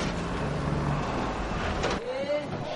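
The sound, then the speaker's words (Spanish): Trucks drive along a road through arid mountains with scattered trees, giving a continuous broad engine rumble and road noise, with a short rising whine near the end. “circula por una carretera entre montañas muy áridas con árboles dispersos en sus laderas. Tres camiones circulan tras él.”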